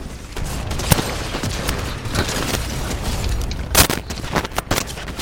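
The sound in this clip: Sniper rifle gunfire in a shooter video game. Sharp, booming shots and crackling bursts rise out of continuous battle noise, with a few loud cracks standing out, the strongest near the end.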